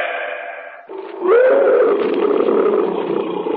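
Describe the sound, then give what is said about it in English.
A tiger roars in the jungle: a low rumble gives way to one long, loud roar that swells and holds, growling, until the end. “What's that? A cat. Probably a tiger somewhere in the jungle.”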